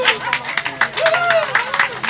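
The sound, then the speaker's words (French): Scattered hand claps from an audience welcoming a speaker to the stage at a talk. A handful of sharp bursts sound over a voice that keeps talking throughout. “Allez, applaudissez-la!”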